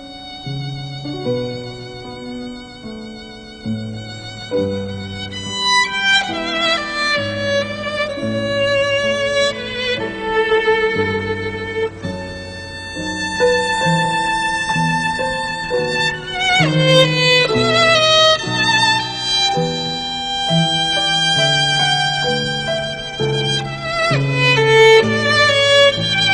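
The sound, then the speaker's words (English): A slow baroque air from Bach's Orchestral Suite No. 3 plays alone for about 26 seconds. Long sustained melody notes ride over a steadily stepping bass line, and the texture grows fuller as the phrases unfold. “The first one being Bach's Orchestral Suite No. 3, Air, more commonly known as Air on a G string. And that sounds like this.”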